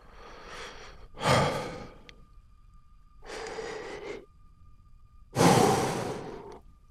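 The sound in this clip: Deep, audible breaths taken to calm down after being upset: four breath sounds in two pairs, each softer intake followed by a louder, sighing exhale. A faint steady hum sits underneath.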